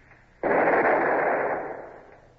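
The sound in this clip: A ship's long nine cannon fires once from the forecastle: a sudden loud blast that swells into a broad, roaring rumble, then slowly fades over the next two seconds.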